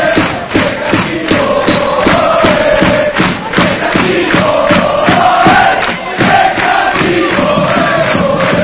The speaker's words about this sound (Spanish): Y se escucha Recreativo EOE en el nuevo vivero. ¡Escuchamos!